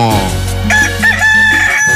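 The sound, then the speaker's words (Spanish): A rooster in Chiapas, Mexico, crows one long, loud, wavering call that holds steady through most of the stretch, with no talk over it. “¡Ah, qué bonito canta mi gallo! Este sí es bien madrugador. Y canta precioso, ¿poco no?”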